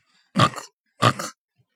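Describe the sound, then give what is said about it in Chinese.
Piglets squeal as they are caught. Two short, sharp squeals come about half a second apart, each one rough and breathy, with quiet in between. “小猪们一个一个的被抓住了。”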